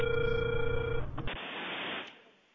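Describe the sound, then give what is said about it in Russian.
A telephone ringing tone while a call is being dialed: a steady, level electronic tone for about a second, then a wash of dense hiss that fades away. “Алло, здравствуйте. Продолжаю дозвон.”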